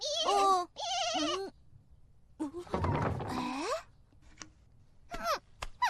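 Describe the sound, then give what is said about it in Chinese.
A lamb, said to have broken its head in a fall, bleating a few times: high, wavering, nasal cries of varying length, separated by short silences. “哥哥，就是这只小羊吗？”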